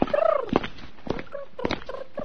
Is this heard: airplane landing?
no